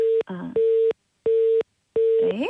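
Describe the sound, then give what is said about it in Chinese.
Telephone busy tone on a faulty call line: four evenly spaced, loud, mid-pitched beeps with short silences between them, and brief fragments of a voice cutting in between the tones. “可能是我们吴老师的这个电话稍微出了一点点问题哈，没关系，我们请导播老师来再重新连接一下。”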